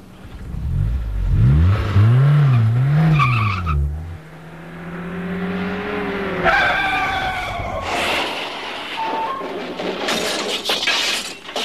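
A car engine starts and revs hard, its pitch swinging up and down, then climbs into a long, rising whine. Loud, harsh, noisy bursts follow toward the end.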